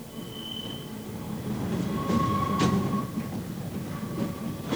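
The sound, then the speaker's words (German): A tram rolls through a city's streets on a foggy November afternoon in Hamburg, a steady rumble of wheels on rails overlaid by thin, high wheel squeals that come and go. “Die Straßenbahn fährt durch den nebelnassen Hamburger Nachmittag.”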